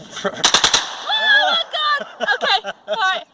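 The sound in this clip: A rifle fitted with a bump stock fires a rapid burst of several loud, evenly spaced shots at a Louisiana shooting session, and people's voices follow, talking right after the burst.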